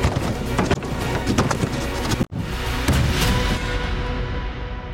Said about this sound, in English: Forcing entry!